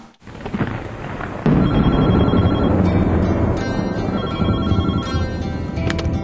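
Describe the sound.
A telephone rings as a man places a call to his wife: repeated high-pitched ringing over a dense, continuous noisy background that grows louder after the first second and a half, with no talk.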